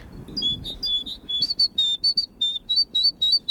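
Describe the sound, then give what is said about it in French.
Blue tits, great tits and a chaffinch chirp together in a lively mix of high, thin notes. Short repeated chirps give way to a quicker, regular run of bright tweets, with no talk. “on a la mésange bleue à côté, avec la mésange charbonnière. Il y a un beau mélange. La petite pinsonne qui vient.”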